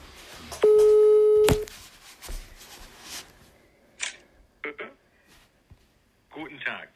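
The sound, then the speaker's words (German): A telephone call being placed: one loud, steady electronic tone lasting about a second, followed by a few scattered short clicks and soft rustling noises. “Und anrufen! Anruf starten.”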